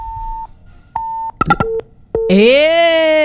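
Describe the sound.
Telephone tones after a call is cut off: two steady, mid-pitched beeps, then a few short chirps and a brief tone, ending in a loud, buzzy, harmonic-rich electronic tone that holds to the end.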